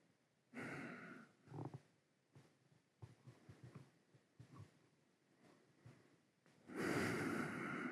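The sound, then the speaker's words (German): Slow, deep breaths during a yoga exercise. Two long, loud, airy breaths open and close the stretch, with softer breathing and small clicks in between. “Und dann halt ein paar Atemzüge noch.”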